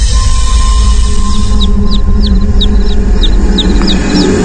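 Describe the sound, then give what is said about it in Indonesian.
Chicks peep in a rapid series of many short, high chirps, fairly faint over a steady, loud low rumble. “Aku mendengar suara anak ayam.”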